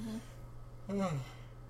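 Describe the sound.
A mother's yawn comes through faintly as a brief voiced exhale whose pitch slides downward over about a third of a second.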